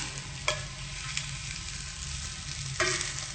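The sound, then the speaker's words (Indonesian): Stirring of seasoned food frying in a pan: a continuous sizzle with a few sharp scrapes of the utensil, no voices. “Aduk biar bumbunya meresap.”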